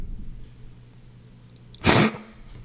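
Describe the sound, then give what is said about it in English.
A single sharp, loud snorting sniff from someone with allergies and a sinus infection, breaking a quiet background for a brief moment. “I really don't like that I have to do that snorting thing. I promise I'm not doing cocaine. That's just my allergies.”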